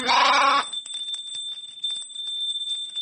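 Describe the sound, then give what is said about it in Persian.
A loud bleat from livestock grazing in mountain pastures, heard alone at the start, then a steady high bell-like ring with scattered soft clicks and taps. “سالم و خوشمزه دامهایی که توی مراتع زیبای این منطقه چرا میکنن.”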